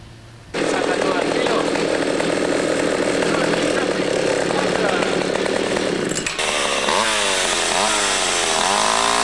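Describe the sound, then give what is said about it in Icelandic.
A chainsaw cuts wood at a sawmill near lakes. It starts abruptly after a moment of quiet and runs as a loud, steady buzzing drone, then shifts near the end into wavering revs that rise and fall in pitch. “Hér erum við aðra sögunarmillu hérna upp hjá vötnunum.”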